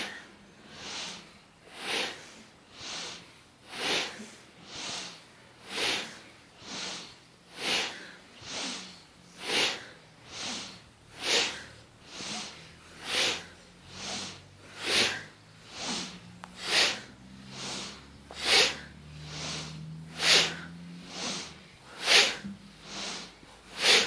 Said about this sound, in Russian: And we make the breathing a little bit more powerful, so we can move more fast.